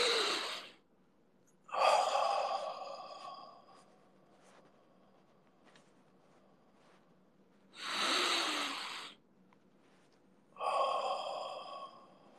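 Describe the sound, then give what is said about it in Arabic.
Deep breathing during a slow inhale-and-exhale exercise: four long, loud breaths of airy rushing noise, each lasting about a second or more, separated by quiet pauses. “شهيق مع الزفير”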